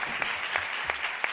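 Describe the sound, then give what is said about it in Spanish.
Audience applause for a group of attendees at a live singing event, a steady dense wash of clapping with a few sharper bursts across a short stretch, moderately loud and without talk. “un aplauso para la gente de Araal”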